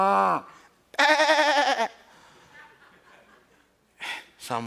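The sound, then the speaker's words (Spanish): A human voice imitates bleating goats in a few wavering, quavering calls, one long and loud and the others short, with soft breathing in the quiet gaps. “¿y todas estas cabras, todos estos chivos y todas estas vacas, de dónde salieron?”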